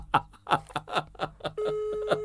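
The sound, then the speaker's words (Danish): A telephone call sounds with a quick series of short, rhythmic tones, followed by a steady, even tone that holds to the end. “Se, nu ringer jeg til mor.”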